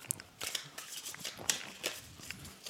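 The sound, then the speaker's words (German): White playing cards shuffled by hand give a quick, continuous papery riffle of dense crisp clicks and flutters, fairly soft and even throughout with a few sharper snaps. “ich habe jetzt hier willkürlich weiße Karten rausgenommen. Ich mische ja. die jetzt einfach nochmal dumm durch.”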